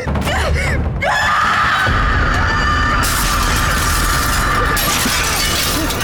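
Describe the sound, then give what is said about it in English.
Glass shattering as a small bomb explodes at a window: a loud, dense crash and scatter of breaking glass that keeps going noisily for several seconds, mixed with screaming voices. “Was that a bomb on the window? They just exploded!”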